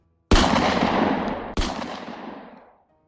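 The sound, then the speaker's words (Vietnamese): Two sharp handgun shots ring out in an abandoned container yard, each a loud crack followed by a long, echoing tail that fades out. The second shot comes just over a second after the first. “Tiếng súng nổ vang lên chát chúa giữa bãi container bỏ hoang.”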